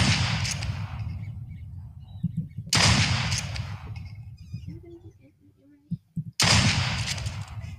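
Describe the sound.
Gunshots in a duck hunting video game: three loud, sharp blasts a few seconds apart, each with a rough, rumbling decay, and quieter game sounds in the gaps between them.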